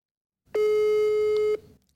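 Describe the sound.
A telephone call tone sounds loudly during a call to an unknown number: one steady, unbroken beep lasting about a second, alone against a quiet background.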